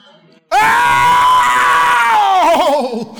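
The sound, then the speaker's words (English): A man's voice imitates a long, loud groan, held at a high, steady pitch for nearly two seconds, then sliding downward and wavering unevenly as it fades. “But this is groaning.”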